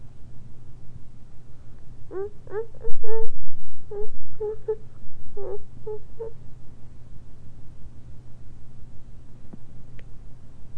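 A baby fussing and whimpering late at night, captured on a tape recorder. Many short, thin whimpers cluster in the first half over a steady low hum, followed by quiet.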